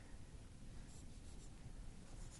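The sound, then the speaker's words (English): Faint scratchy writing on a board: soft, uneven marker or chalk strokes rasp in a low, hushed stream, with no talking over them. “We'll write rejoice right here.”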